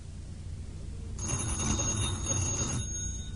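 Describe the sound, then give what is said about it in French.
A telephone bell rings in one continuous burst of about a second and a half, bright and steady, then stops. Quiet room tone comes before and after, and no one speaks. “Le téléphone. C'est le téléphone.”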